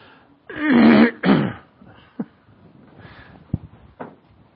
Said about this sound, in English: As I work out my phlegm ball that I get every night now.